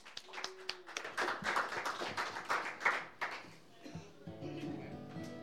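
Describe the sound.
Audience applause welcoming a songwriter to the stage: a few seconds of dense hand clapping that fades out, after which steadier tonal sounds take over.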